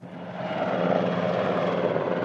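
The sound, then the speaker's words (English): A helicopter flying over the port of Augusta in Sicily, where a large Coast Guard vessel has docked, gives a steady, droning engine and rotor roar that swells slightly at the start and then holds constant, with no voices. “A helicopter flew over the port of Augusta, where a large Coast Guard vessel had docked this morning.”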